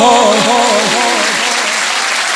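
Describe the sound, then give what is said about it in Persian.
Audience clapping in a dense, continuous burst of applause at a religious chanting gathering, loud and steady, with a singing voice carrying over the claps. “دست میزنی بی حال، دست نزن، دست بیاد بالا.”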